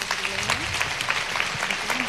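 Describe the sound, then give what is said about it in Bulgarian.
Applause from an audience at a music event on stage, a steady dense wash of clapping that holds an even level for the whole short stretch. “Отново аплодисменти”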